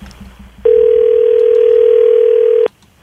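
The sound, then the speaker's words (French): Telephone dial tone on an outgoing call, a single loud, steady, unbroken tone that holds for about two seconds and then cuts off abruptly. “Je t'appelle en onde à la radio avec Mario Tessier et Sébastien Trudel.”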